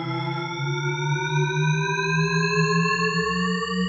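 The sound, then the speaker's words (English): Shepard tone illusion, a dense stack of parallel electronic tones gliding slowly upward in pitch at a steady loud level, sustained throughout with no talking. “This is the sonic illusion known as the Shepherd tone, named after cognitive scientist Roger Shepherd. It gives listeners the impression that sound is constantly going up or going down in pitch, but never resolving.”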